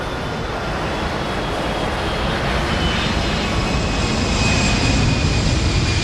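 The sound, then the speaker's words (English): An airplane flying at night gives a steady, broad engine roar that holds at an even loudness from start to finish, with no voices. “At night, an airplane glides across the starless sky, lights flickering intermittently near its landing gear.”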